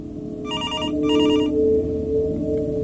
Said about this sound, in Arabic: لقيت تليفون من 110. بصراحة أول ما بشوف الرقم ده دلوقتي بقيت أفرح عشان ستي طيبة جدا.